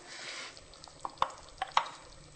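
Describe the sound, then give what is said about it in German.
A spoon stirs cabbage, potatoes and sauerkraut in a pot, giving a few quiet scraping clicks and knocks over a faint, steady hiss. “Und jetzt einfach umrühren.”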